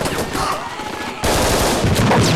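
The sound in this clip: Gunfire in a film scene as a character shoots from the windows of a flat, a dense rattle of rapid shots that jumps suddenly louder about halfway through and stays intense.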